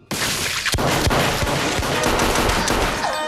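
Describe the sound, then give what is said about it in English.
Gunfire in an indoor shootout in a room with a wooden floor and a sofa: several sharp cracks stand out over a loud, dense, continuous wash of noise that runs for the whole clip. “As the brunette fires, Bob slides across the wooden floor and fires around the end of the sofa, felling the woman.”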